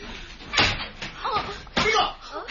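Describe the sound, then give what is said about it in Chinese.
A room door being opened, heard as a few sharp knocks and clattering thuds, with voices between them. “咁打开房门睇下。”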